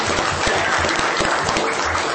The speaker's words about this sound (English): Bonita has given 40 years of service to Taney County, so I think that deserves a round of applause.